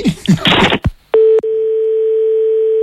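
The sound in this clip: A telephone dial tone holds one steady pitch for well over a second. Before it come a brief muffled voice, some handset noise and a short tone pulse cut off by a click.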